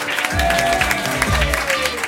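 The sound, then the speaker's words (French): Studio audience applause greeting a guest on a radio talk show, a dense, steady wash of many hands clapping that holds at an even loudness for the whole stretch. “Applaudissez Fabien Lecoeuf.”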